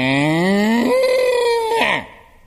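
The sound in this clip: A human voice imitates a cow mooing in a sing-along farm-animal song, a single drawn-out lowing call that rises in pitch, holds steady, then breaks off after about two seconds.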